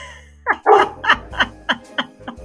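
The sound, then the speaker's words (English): A dog barks excitedly after the postman came. Its sharp, loud barks come in a quick run, with shorter, fainter yips toward the end. “that's my dog.”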